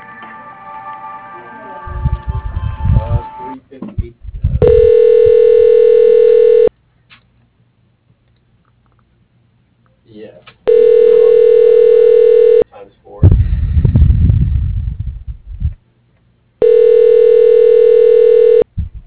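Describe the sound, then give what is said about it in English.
Telephone line tones play during a call transfer: three long, steady, buzzing tones of about two seconds each, separated by gaps. Voice-like sound comes before the first tone and between the second and third. “Okay, I'm gonna transfer you over. Hold on 1 second.”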